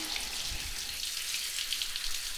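Running water rinsing someone off during a wash: a steady, soft hiss of spray with light splashing, even in level throughout, with no voices.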